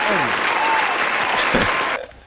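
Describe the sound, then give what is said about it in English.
Studio audience applause, a full, steady burst of clapping with a man's voice briefly over it, holding level for about two seconds before dropping off quickly. “Round of applause. Where the studio audience at?”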